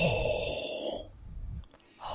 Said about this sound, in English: When you breathe on those glasses, though, you're not supposed to just breathe on one side at a time. Do both sides at once, and then you can wipe them off, okay?